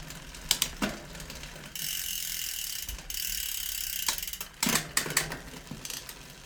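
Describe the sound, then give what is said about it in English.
Scraping and ticking from a bicycle wheel spinning on a repair stand, its disc brake rotor bent and slightly loose and rubbing, heard as uneven bursts of ratchet-like clicks separated by smoother whooshing runs of the turning wheel. “The rotor is bent and maybe a little bit loose. So you can kind of hear it when”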